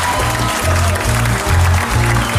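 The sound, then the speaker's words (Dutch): Loud audience applause for a figure being honoured, a thick, steady wash of clapping over a rhythmic low pulsing beneath. “Ja, nou dat zal hem goed gedaan hebben, dat applaus.”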